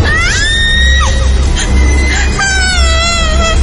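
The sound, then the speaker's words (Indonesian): A person screams in fear with a few long, high, wavering cries over a steady low background noise. “Di sana aku langsung menutup mataku dan berteriak karena ketakutan.”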